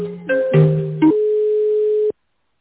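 Telephone line tones while a business call is transferred to a specialist: a few short, stepped tones, then one steady tone held for about a second that cuts off abruptly.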